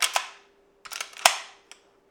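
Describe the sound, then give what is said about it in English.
An old-style lever-action rifle, owned for about 35 years, is handled and checked at a hunter's home. It gives several sharp metallic clicks and clacks in short clusters with quiet gaps, the loudest clack near the middle. “organizes his clothes and does a final check of his gun.”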